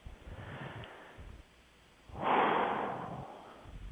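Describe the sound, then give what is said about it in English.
A deep breath taken during a relaxation tapping exercise, a soft airy rush that swells for about a second, surrounded by quieter breathy sounds. “Take a deep breath.”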